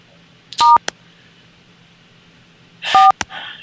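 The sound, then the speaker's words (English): Touch-tone dialing beeps from an archaic automated voicemail system, heard as two short clusters of sharp tones separated by a quiet pause, with a faint hum underneath. “Sorry about that, folks. It's yet another archaic voicemail system.”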